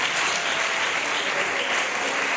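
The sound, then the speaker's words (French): Audience applause at a church gathering held in honour of a bishop, a dense, steady clatter of many hands clapping at a constant level throughout, with no voices standing out. “Est-ce que nous pouvons acclamer pour l'évêque?”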